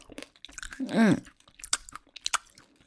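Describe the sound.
Chewing on candy gives a run of small, crisp crunches and mouth clicks, loudest near the start and end, with a brief hummed vocal sound midway.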